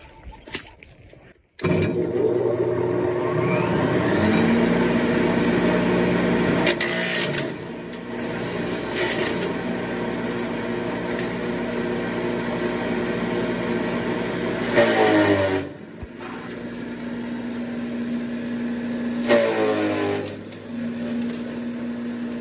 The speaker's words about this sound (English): And so now I'll go ahead and fire it up and we'll see how it works.